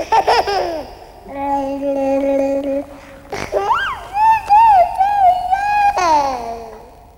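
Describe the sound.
Babies' voices babbling within an old German schlager song recording: high warbling squeals and gurgles with gliding pitch, mixed with steady held tones, fairly loud throughout.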